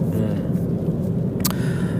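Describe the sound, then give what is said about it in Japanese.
Steady interior road noise of a car being driven in the evening from Kokura in Kitakyushu toward a home in Fukuoka: a dense low rumble throughout, with a brief higher hiss near the end. “今はですね北九州市小倉、クロス FM から福岡市の自宅に向かって車を走らせております。”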